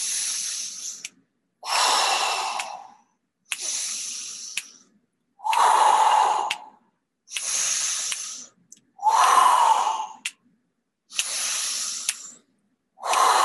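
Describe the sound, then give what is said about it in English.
Deep breaths in and out during a guided breathing exercise: a steady series of about eight long, airy breath bursts separated by short silences, with no talking over them. “So 5 breaths there. Here we go. Deep in and out.”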